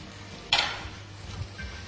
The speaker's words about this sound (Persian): حالا میریم سراغ بامیه ها، یه کمی حرکتشون میدیم تا همشون یه دست سرخ بشن.